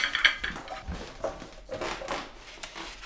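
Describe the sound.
Plates and cutlery clink faintly as food is served at a dinner table. A few light, bright ticks cluster near the start, and soft scattered scrapes and taps follow in a quiet setting.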